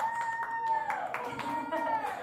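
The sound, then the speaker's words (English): Audience applause at a live show: dense, steady clapping that runs throughout, with cheering voices mixed in. “We're going to give you a hand. Yay!”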